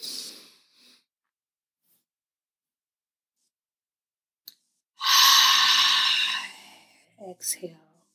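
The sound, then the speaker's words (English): A deep inhale during a guided breathing exercise: one long, airy breath lasting about a second and a half, followed by a few short, quieter breath sounds. “we're gonna inhale on one”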